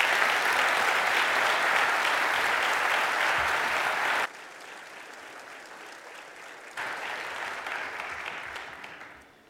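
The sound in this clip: An audience at Calvary Baptist Church applauds to welcome a guest speaker, a dense, steady wash of clapping that drops in level partway through, swells again, then fades out at the end.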